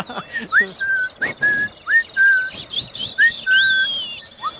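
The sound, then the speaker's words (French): Small birds chirping outdoors while eating bread, giving many clear, high whistled notes, each a short upward sweep followed by a held tone, repeated in an uneven rhythm over faint background noise. “Ils sont là, les oiseaux. Regardez, on les entend, on les voit. Ils sont magnifiques.”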